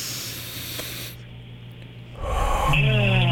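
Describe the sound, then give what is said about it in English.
One deep inhalation through the nose during a guided breathing exercise, a soft, airy hiss lasting about a second, followed by a short pause and then a voice speaking. “And as we exhale, we just want to let all the tension go. All right, let's do it in 3, 2, 1, all the way in through the nose.”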